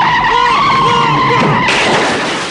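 Squealing, whining tones from a car driven hard off a sales lot, then an abrupt loud, broad crashing burst as it strikes a salesman and smashes through a window, the noise slowly tapering off.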